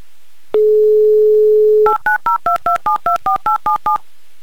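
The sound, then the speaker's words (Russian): A telephone number is dialed on a touch-tone phone: a steady dial tone sounds first, then gives way to a quick, even run of loud keypad beeps at shifting pitches. “Но то, что мы уже готовы звонить, это совершенно точно. И делаем это прямо сейчас.”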